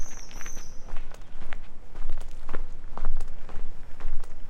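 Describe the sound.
Footsteps of a person walking at a steady, even pace, many firm steps in a row with no talking.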